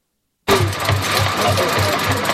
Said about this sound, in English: The machine comprises a filter attached to a bicycle mounted on a metal platform. As the bicycle is pedaled, the movement of the wheel draws water into the filter.